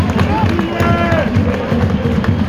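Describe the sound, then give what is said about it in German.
Football stadium crowd at a cup match singing the chant 'Oh, wie ist das schön', a loud, dense mass of voices carrying sustained sung tones over a constant crowd roar. “Oh, wie ist das schön. Schallt es durch das Rund und ich sag mal, wir würden mitsingen, wenn wir nicht nebenbei noch einen Podcast aufnehmen würden.”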